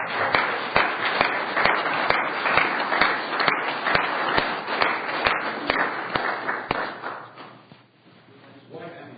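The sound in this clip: A meeting audience applauds to welcome a guest doctor. The clapping is loud and continuous, with regular sharp claps cutting through the crowd noise before it tapers off near the end.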